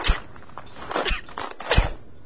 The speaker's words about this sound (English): So I'm taking a walk around camp